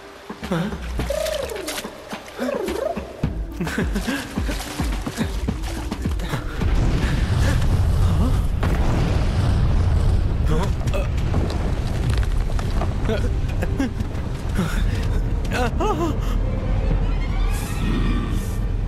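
A volcano erupts with a deep rumble that swells loud about a third of the way in and then holds, continuous and roaring, to the end.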